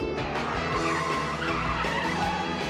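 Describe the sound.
A car accelerates with a loud, continuous engine roar and squealing, skidding tires that stay strong and steady throughout.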